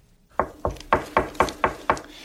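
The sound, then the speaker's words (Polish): Knocking on a door: seven evenly spaced, fairly quiet knocks in a steady rhythm. “Kto tam puka?”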